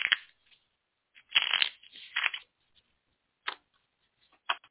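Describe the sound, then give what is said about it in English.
A deck of cards is shuffled for a reading, producing several short, crisp riffling bursts separated by quiet gaps, soft and with no voices. “I'm going to shuffle and do a general reading for us.”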